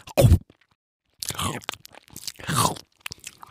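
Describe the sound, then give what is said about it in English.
A biting chomp stands in for an anglerfish catching prey in the deep sea: a few crunching, chewing bursts separated by silent gaps, the first one short and sharp. “The anglerfish uses this light to lure other fish and sea creatures towards him. And then, chomp,”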